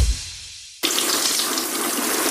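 Water pours over a bathroom cabinet, starting as a sudden, loud, steady gush after a near-silent first second and running evenly to the end.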